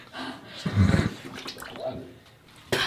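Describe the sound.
Water splashes and sloshes as someone dips into an ice bath, a rough noisy wash that swells early on and ends with a sudden sharp burst, with excited voices around it.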